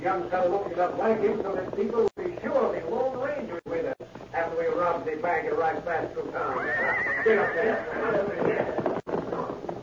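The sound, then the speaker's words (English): A horse whinnies as several horsemen pass along a trail, a high neigh rising out of dense talk. “Also, one of the horses whinnied as they passed.”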